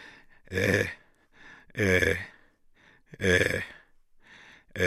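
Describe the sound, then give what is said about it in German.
Raw, inarticulate groaning and moaning from an old man, in three strong voiced bursts with softer breathy sounds between them, and another groan beginning at the very end. “während der Cherub das Tuch um den Hals des Greisen windet, hört man Gottvater unartikuliert rau stöhnen und jammern.”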